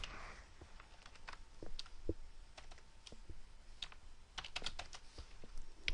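Keys clatter as code is typed on a computer keyboard, producing irregular bursts of light plastic clicks, mostly quiet with a few sharper strokes.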